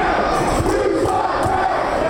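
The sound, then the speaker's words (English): A rowdy wrestling crowd jeers and heckles a masked villain in tight spandex, a loud, unbroken roar of many shouting voices. “The rowdy crowd of hecklers hurl their insults at the tight spandex-wearing masked villain as he plays the role of the bad guy and mocks them right back.”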